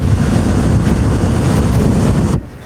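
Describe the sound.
A hot-air balloon burner fires with a loud, steady, low roaring whoosh that cuts off abruptly near the end.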